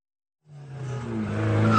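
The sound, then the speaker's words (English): Car tires screech as vehicles pull up on a street in Kenosha. After a short silence, a harsh squeal starts and grows steadily louder to the end, with low engine rumble beneath it. “Feds pull up in street cars, some of them in street clothes, surround the vehicle,”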